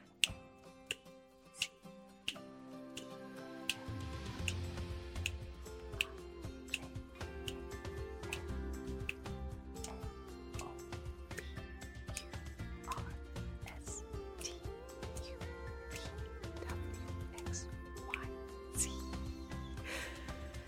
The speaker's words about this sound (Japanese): 今のはメトロノーム80っていうスピードでやってみたんですけれども